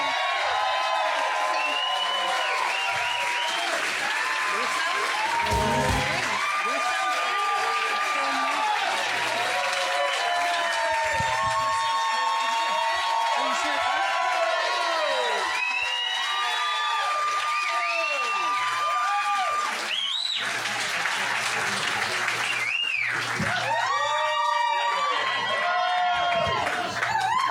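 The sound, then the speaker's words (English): Sustained cheering and applause from a live audience greeting the host of a live comedy show, a loud unbroken roar of clapping, whoops and shouts that holds steady for the whole stretch. “Make some noise for your host, Ralph Garman!”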